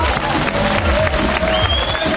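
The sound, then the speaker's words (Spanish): Audience applause on a Spanish variety show as a singer is introduced: thick, continuous clapping with some cheering mixed in, steady and full throughout. “¡Aplauso!”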